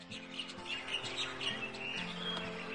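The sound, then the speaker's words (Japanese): Birds chirp in a scatter of short, high tweets over a quiet, steady low hum, all faint and without any voices. “鳥の声”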